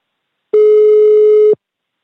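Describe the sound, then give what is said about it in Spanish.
A single steady telephone ringing tone sounds while a call is being placed: one clean, even, mid-pitched beep of about a second that starts and stops abruptly, with silence around it and no voices. “Tengo dos teléfonos de Dioscorp, no sé cuál va a ser el correcto, pero estamos llamando a Dioscorp.”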